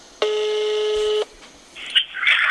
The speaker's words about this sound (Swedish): tänkte vi skulle ringa till honom så man vet hur man ska gå in och rösta